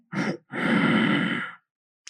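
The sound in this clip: A double breath taken during a guided relaxation exercise while tensing the right arm. A short airy breath is followed after a brief pause by a longer, sighing one, and a faint breath starts just at the end.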